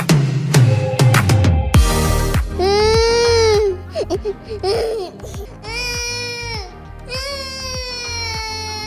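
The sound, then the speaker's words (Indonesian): A young child cries loudly in drawn-out, high-pitched wails, broken by catching sobs and short breaths between the bursts. “Adek kenapa? Kok nangis?”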